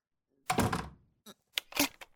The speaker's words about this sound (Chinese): 你干什么？你怎么把门给锁起来了？开门！